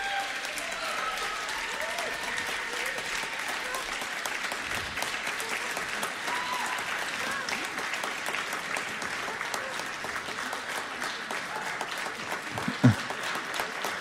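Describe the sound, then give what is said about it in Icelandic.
Audience applause at a grant award presentation, a steady, dense clapping that carries on evenly for the whole stretch, with one brief low thump near the end. “gefum þeim gott klapp”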